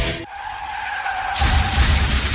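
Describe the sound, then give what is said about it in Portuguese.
Car tires skidding in an insurance advert give a sustained high squeal, and partway through a louder, rougher rush of noise takes over. “Eita, não sei de quem é culpa, mas esse aí é prejuízo. Acidentes acontecem, seja um esbarrãozinho a uma colisão séria.”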